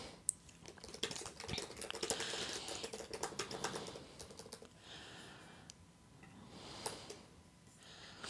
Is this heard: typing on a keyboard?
yes

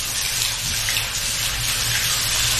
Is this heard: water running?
yes

